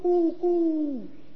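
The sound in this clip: A person's voice imitates a dove cooing with two hummed, hollow notes. The first is short and the second longer, sliding downward at its end.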